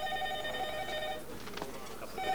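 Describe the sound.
A telephone rings with a bright, warbling electronic tone; one ring sounds, a short gap follows, and a second ring begins at the end, over faint background noise.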